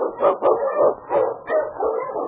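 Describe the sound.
A husky sled dog barks in a series of sharp, mid-pitched barks with short gaps between them, fairly loud and heard on its own without talk.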